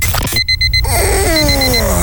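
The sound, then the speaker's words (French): Alarm clock beeping in a quick burst of a few sharp, high-pitched pulses, then fainter repeated beeps trailing over a sliding, sweeping tone. “Tu croyais pouvoir repousser ton réveil? Encore 5 minutes.”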